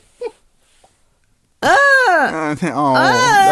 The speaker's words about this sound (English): Got a fussy baby. Little stinker's back.